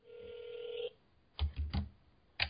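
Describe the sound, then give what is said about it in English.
A telephone call being dialed: a steady dial tone sounds for under a second, then stops, followed by a few short, thudding key presses. “Well, let's give the Weigel call one shot.”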